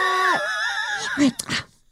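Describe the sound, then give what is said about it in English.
A father's voice imitates a monster with a loud, drawn-out wavering groan-scream meant to scare his children out of his dark bedroom, followed by a few short, harsh bursts. “Because I will spike my own adrenaline screaming like that.”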